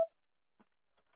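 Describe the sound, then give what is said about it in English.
A voicemail recording tone sounds as a single short, sharp beep right at the start, followed by near silence with a few faint soft blips. “At the tone, please record your message. When you have finished recording, you may hang up.”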